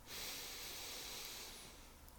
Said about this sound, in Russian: И давайте вот в этом состоянии сделаем три вдоха и три выдоха. Вдох,